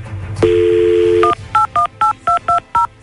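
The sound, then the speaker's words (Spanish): A telephone number is dialed: a short steady dial tone gives way to a quick, even run of about seven touch-tone key beeps, each crisp and alike in length. “Entonces ahorita le voy a marcar al compa Felipe para ver qué es lo que descubrimos.”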